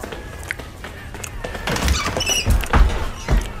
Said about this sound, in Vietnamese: Cánh cửa của ngôi nhà sàn bị đập bung ra.